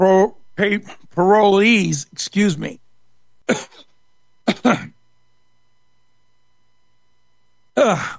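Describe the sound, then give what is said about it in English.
A person coughs while reading aloud, giving a few short, harsh throat-clearing coughs separated by brief pauses, with speech before and after. “hate that when you cough when you're trying to read a story.”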